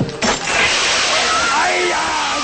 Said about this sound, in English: Water shoots all over the restaurant.